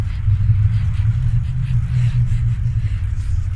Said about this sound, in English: Following close behind him is a car with its headlights on, his mother behind the wheel.